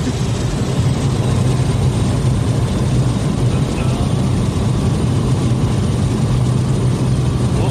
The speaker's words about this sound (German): Und wir landen touchdown number one.